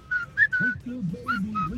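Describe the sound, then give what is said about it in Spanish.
Someone whistles a short tune in a series of clear, bright notes of varying pitch, moderately loud with brief gaps between phrases. “Ah, mira, también le salió. O sea, tenemos silbadores profesionales del otro lado.”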